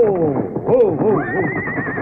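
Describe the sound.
A mare whinnies loudly in a desolate place, a shaky, wavering call with rippling pitch that ends in a long high tone.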